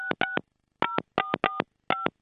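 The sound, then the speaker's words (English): A telephone being dialed, its DTMF keypad tones sounding as a series of short, crisp two-tone beeps. The beeps come in quick clusters separated by brief pauses, loud and clear with nothing else around them. “Just going to dial him live on air here. Dial him.”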